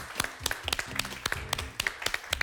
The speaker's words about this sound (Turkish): Can'ı alkışlayalım.